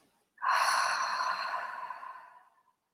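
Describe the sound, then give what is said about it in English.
A long, audible breath during a guided meditation: one deep, sigh-like exhale that is breathy and steady, trailing off over about two seconds with no talk. “Deep breath in. Exhale out.”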